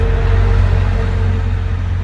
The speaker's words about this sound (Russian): О, видите, там какой-то автобус сюда поехал.